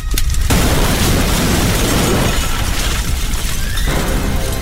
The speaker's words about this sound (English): Oh, Eli! The ATV, it's burning! Is there gas in the tank? We have a bigger problem. The propane tank. Propane? We gotta get out of here! Everybody run now!